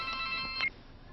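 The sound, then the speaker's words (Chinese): A mobile phone rings in a short burst of bright electronic tones that stops abruptly after well under a second. “张仲平走后，丛林的手机响”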